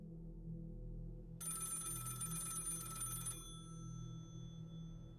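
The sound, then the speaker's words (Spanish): A telephone rings with an incoming call at a police department office: one bright, high, trilling ring of about two seconds that then stops, over a steady low hum. “Justo una hora y media después del ataque hacia Brian Hartnell y Cecilia Shepard en el lago Berriesa, una llamada entró a la oficina del Departamento de Policía de Napa.”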